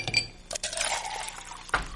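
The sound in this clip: A shot of Canadian whiskey poured into a glass: a few bright glass clinks and a brief liquid splash, with no talk.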